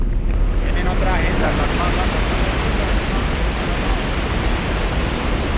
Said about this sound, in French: Ce bruit est celui de l'eau du barrage de la ville d'Ituango, dans la région d'Antioquia.